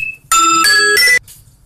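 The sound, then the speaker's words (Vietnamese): Alarm clock ringing: a short, loud electronic melodic chime of three quick tonal steps that lasts about a second, then cuts off into quiet. “xin lỗi các bạn, cái chuông reo báo thức của Thi nó kêu cho nên đang nói tự nhiên nghe cái cũng hết hồn đó.”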